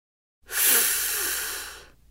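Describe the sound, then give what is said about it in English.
A single deep breath drawn in through a stuffy nose: a steady, airy hiss that swells quickly and lasts about a second and a half before fading out. It is heard alone, with no talk. “Take a deep breath.”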